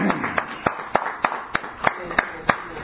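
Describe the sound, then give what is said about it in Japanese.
Clapping offered for elderly people on Respect for the Aged Day in Japan: many sharp, evenly spaced claps in a steady rhythm, slightly muffled and dull in tone. “今日は敬老の日ということでございまして、全国世界中のお年寄りに、どうぞお元気ですという拍手を送らせていただきましょう。”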